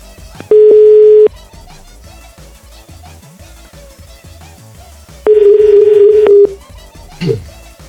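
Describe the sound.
A telephone tone sounds while a call is being placed: two long, steady, loud beeps at one pitch, separated by a long gap with faint background sound between them.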